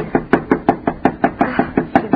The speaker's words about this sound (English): Knock harder.